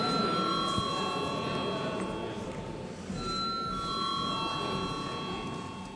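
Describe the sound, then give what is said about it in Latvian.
Bell rung in a parliament chamber before a vote, a steady high-pitched electric ringing that sounds in two long stretches over low background noise. “Lūdzu zvanu.”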